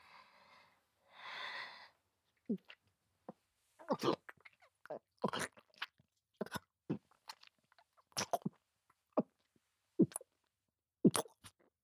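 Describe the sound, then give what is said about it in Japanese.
Drinking heard close to the ear: two breathy draws of air at the start, then many short, wet gulps and swallows in an irregular rhythm, separated by near silence. “飲むぞ。耳元で聞きたいのか？”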